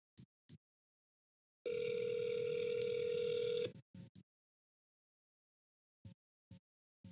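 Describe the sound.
An outgoing phone call gives one ringback tone, a steady buzzing hum lasting about two seconds. A few short clicks come before and after it, and the whole is faint.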